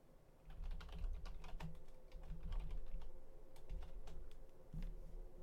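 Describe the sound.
Typing on a computer keyboard: a quiet, rapid, irregular stream of key clicks in bursts with brief pauses, alone without voices.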